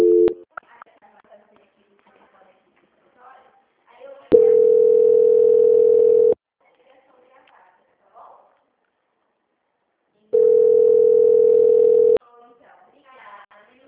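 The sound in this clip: A telephone line tone plays during a call transfer: two long, steady, mid-pitched tones of about two seconds each, separated by long near-silent gaps with faint clicks.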